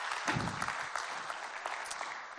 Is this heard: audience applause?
yes